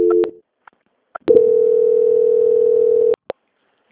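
A telephone line tone plays during a call transfer: a brief tone and a few clicks, then a steady, single-pitched hum held for about two seconds. It ends abruptly with another click.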